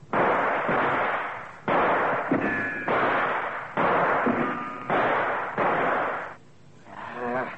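Gunshots from a handgun fired at a tin can target: a series of loud, blunt bursts in close succession, with a fainter final shot after a short gap.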